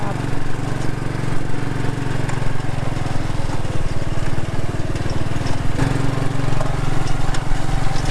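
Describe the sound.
A powerful car engine gives a loud, rough, buzzing rumble with a strong low drone. It holds fairly steady throughout, with no clear revs rising or falling.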